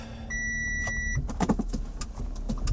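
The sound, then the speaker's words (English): A car drives along in Milwaukee with a low, steady road rumble. A sustained electronic chime sounds early on, followed by a run of clicks and light rattles. “More car noises.”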